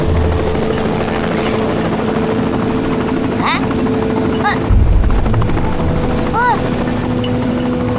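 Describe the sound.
An aircraft taking off produces a loud, steady engine and rotor drone throughout. Voices talk over the continuous hum, and a brief thud is heard partway through.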